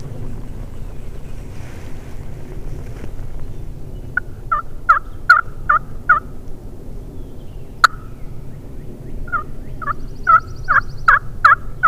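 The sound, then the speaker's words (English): Gobbling calls from two or three birds together: bursts of rapid, repeated calls in the second half, over a steady rumble of wind noise. “There's two or three birds in there together.”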